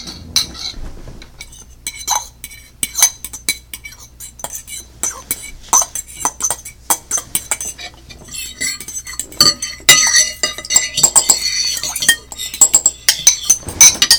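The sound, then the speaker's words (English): Forks clink and scrape on porcelain plates as people eat ravioli in tomato sauce, a busy, irregular stream of many sharp metallic taps and scrapes that gets denser and louder toward the end. “The sound of the week was us eating raviolis violently. To be more specific, that is forks on porcelain plates with tomato sauce.”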